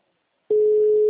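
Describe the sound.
A telephone tone sounds during an outgoing call to a client: after a moment of silence, a single steady, mid-pitched tone starts abruptly and holds unbroken and fairly loud to the end.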